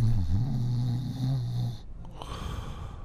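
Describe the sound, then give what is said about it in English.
A voice imitates a man snoring after he dove into the back of an 18-wheeler truck. A low, buzzing, droning snore lasts under two seconds and is followed by fainter, rough breathy noise. “He's just snoring.”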